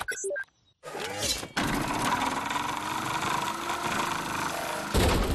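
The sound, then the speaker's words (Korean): Cartoon sound effect of a camper van driving straight into a river and turning into a boat: a brief clattering burst and short gap, then a loud, sustained churning roar that runs to the end. “캠핑카가 정말 강으로 가고 있군요. 신기하다. 캠핑카가 배로 변했네.”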